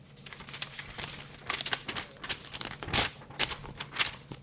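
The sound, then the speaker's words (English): Paper tearing and crinkling as an envelope is opened, in a series of short, dry, rustling bursts at fairly low volume, with no voices. “Can you open that envelope for me,”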